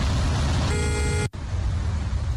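Car horn honking in a traffic jam of stalled cars, some out of fuel: a single steady, flat horn tone lasting about half a second rises over a constant rumble of idling traffic, then the sound cuts off abruptly.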